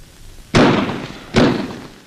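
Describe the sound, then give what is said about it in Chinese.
Two loud blasts from an explosive set off by a fuse fixed to barbed wire at an enemy blockade line at night, each with a sharp onset and a rumbling decay, the second following under a second later. “导火索很快被引爆了”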